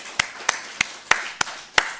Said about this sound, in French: Il a réussi sa matu, on peut applaudir.